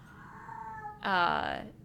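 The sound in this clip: A cat meows loudly in one drawn-out, outraged, strongly tonal cry in the second half, after a fainter, steadier tonal sound.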